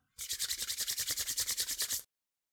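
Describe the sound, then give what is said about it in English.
Hands rubbed briskly together to warm them, a dry, hissing friction sound in many rapid, even strokes lasting about two seconds, heard alone. “Or you can rub your hands together to warm them.”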